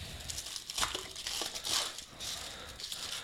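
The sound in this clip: Packaging crinkles and rustles as a bottle of black IPA beer is unwrapped, producing several soft, crackly bursts that stay faint.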